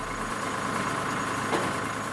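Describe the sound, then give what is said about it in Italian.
A truck idles at a site after delivering contaminated material, its engine giving a steady, even drone with no change in pitch for the whole clip. “Questo camion è venuto qua a portare il materiale inquinato”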